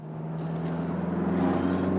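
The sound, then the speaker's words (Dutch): A classic 1975 Alpine A110 drives with a steady, low engine drone that grows slightly louder over the short stretch, with no speech. “Namelijk gaan rijden ja, in eigenlijk het icoon van Alpine en dat is de A110.”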